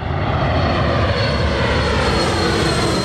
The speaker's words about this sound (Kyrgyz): Мына өзүңөр көрүп турасыңар, шаардын ортосуна жайгашып, шаардын үстүнөн учуп өтөт самолетчу.